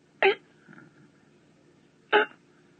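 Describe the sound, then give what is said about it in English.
A voice imitates a sick baby gasping for breath with two short, sharp, hiccup-like catches about two seconds apart, separated by a faint murmur. “Just looked like any minute, just kind of catching his breath like he's going,”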